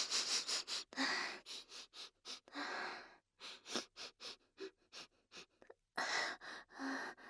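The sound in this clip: Rapid, repeated sniffing by a woman breathing in a pleasant smell: many short, breathy inhales in quick bursts, broken by brief pauses and a few longer, deeper draws, with no speech.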